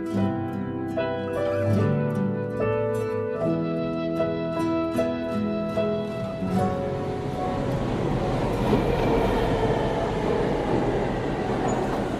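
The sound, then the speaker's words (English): Rumbling, hissing train noise of the 14th Street subway station in New York City. It rises loud and steady after several seconds of melodic music and continues without voices. “This is the sound of the 14th Street subway station in New York City, which is an ordinary enough place.”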